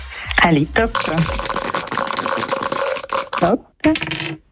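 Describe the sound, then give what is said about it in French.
Dice rattle and tumble during a board game: a dense clatter lasting a couple of seconds, with a voice talking just before and briefly after. “Allez, quand vous voulez pour les dés.”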